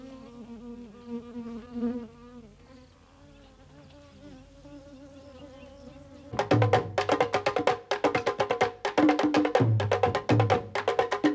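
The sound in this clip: Flies buzz around a large blood stain on grass with a wavering, thin hum. The hum gives way to a louder, dense stretch of rapid crackling and clicking bursts.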